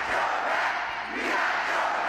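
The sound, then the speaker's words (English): Roar of about 2,000 supporters cheering President Biden at a raucous political rally in a packed school gym in Detroit, Michigan: a dense, steady wall of crowd noise that holds loud throughout with only a brief dip. “2,000 supporters cheering President Biden in a packed school gym in the important battleground state, Michigan. The crowd also chanting, "Don't you quit."”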